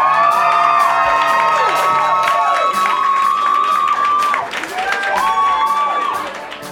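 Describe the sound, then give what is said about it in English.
Audience applause and cheering as a local band is welcomed onto the stage: loud, sustained crowd noise with high shouted whoops, dipping briefly and then tapering off at the end. “Please put your hands together. Welcome to the stage, my friends and yours, Upon Collide.”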